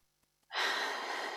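A single deep breath drawn in, starting abruptly after a short quiet stretch and holding as a steady, loud airy rush until the end.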